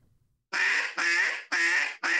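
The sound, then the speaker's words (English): A duck call blown by mouth gives a run of four loud, raspy, reedy quacking notes, each about half a second long, back to back after a moment of near silence. The last note is cut short. “That's the air that you blow a duck call with.”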